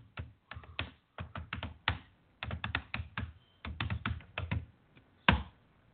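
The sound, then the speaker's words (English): Typing on a computer keyboard while entering a message in a chat room: crisp, rapid keystrokes in irregular bursts separated by short pauses, ending with one louder tap. “I just typed in the chat room.”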